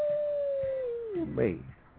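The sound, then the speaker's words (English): A dog howls in one long, steady tone that sags slightly in pitch. A short, rougher yelping burst follows, then the sound fades. “Oh, dog's going to bark on that one.”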